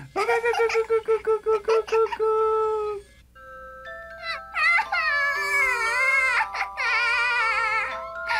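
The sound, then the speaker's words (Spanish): A baby cries in an animated series, first in rapid pulsing sobs, then a short pause, then loud, high, wavering wails that rise and fall. “¡Ay, pero qué cara de tonto! ¡Mira, ya dejó de llorar!”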